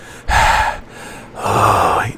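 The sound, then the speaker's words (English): A sharp intake of breath, heard as two loud, airy bursts of breathing with a short pause between them, the second longer and rougher; no words are spoken. “I apparently have to take a breath.”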